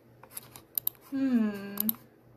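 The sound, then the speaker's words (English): Typing a word on a keyboard gives a few sharp key clicks in two short bursts, with a brief voice sounding between them. “I cannot copy and paste it, so I have to type it.”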